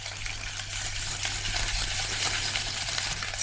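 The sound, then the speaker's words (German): A whisk beating egg yolk with sunflower oil in a bowl, giving a faint, steady stream of rapid metallic clinking and wet stirring with no pauses. “Mit einem Schneebesen beginnt er zu schlagen.”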